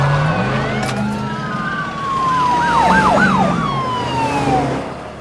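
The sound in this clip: Wailing and yelping sirens from several sheriff's office vehicles speeding away. They are loud and continuous, with pitch sweeping up and down in fast wavering cycles over a low, steady rumble.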